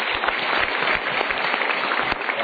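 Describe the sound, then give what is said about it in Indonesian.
Studio audience applause at a motivational talk show. Many hands clap in a dense, even, sustained patter at moderate loudness. “Kita berikan tepuk tangan dulu.”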